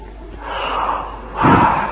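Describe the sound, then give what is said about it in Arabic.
A person takes a breath in: a breathy rush of air that swells into a louder, fuller inhale toward the end. “ما الذي حدث؟ نفس، أخذت نفسا، هذا النفس نعمة.”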